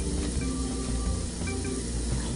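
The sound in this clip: Food browning in a frying pan gives off a steady, fairly quiet sizzle, an even hissing crackle that holds without pause from start to finish.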